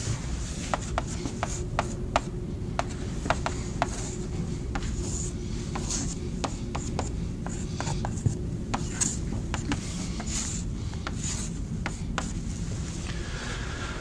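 Handwriting as equations are written out in matrix form: faint continuous scratchy strokes broken by many sharp little taps, with no voices.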